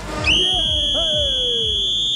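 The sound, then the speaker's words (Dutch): A shrill whistle blast sounds on a train station platform at Rotterdam Centraal, one long, steady, high-pitched tone held to the end over a low, rumbling background. “Dat was het fluitje van Richard Groenendijk hier op Rotterdam Centraal.”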